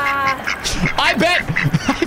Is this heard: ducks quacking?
yes

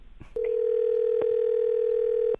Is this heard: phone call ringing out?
yes

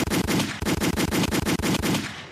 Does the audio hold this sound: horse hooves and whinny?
no

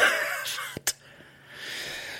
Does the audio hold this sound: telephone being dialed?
no

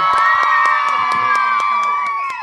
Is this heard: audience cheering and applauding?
yes

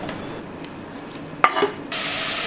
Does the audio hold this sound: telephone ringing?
no

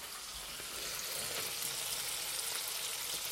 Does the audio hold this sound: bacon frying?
yes

